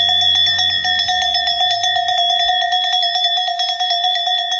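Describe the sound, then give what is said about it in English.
A cowbell rung across a square by the ferry, marking a runner's approach at the end of an ultramarathon trail, gives loud, continuous rapid clanging with bright, sustained metallic ringing tones and no voices. “Suddenly, a cowbell rang out across the square.”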